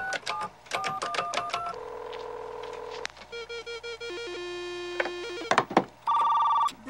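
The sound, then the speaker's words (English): Telephone dialing into a school's computer: a sequence of electronic tone bursts and steady beeps. A held pitch is followed by runs of short repeated beeps, then a louder sustained tone near the end. “What are you doing? Dialing into the school's computer.”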